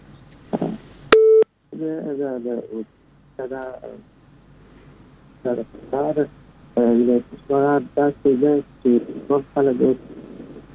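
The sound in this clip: A single short telephone tone sounds once after a caller's line is cut off, steady and fairly loud, followed by a man talking at length.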